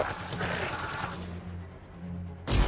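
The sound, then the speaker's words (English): Rapid automatic gunfire provides covering fire in a video game, a fast burst of repeated shots that thins into a noisy rumble and ends with a sharp, loud bang. “Have time to use that mortar. Give me some covering fire.”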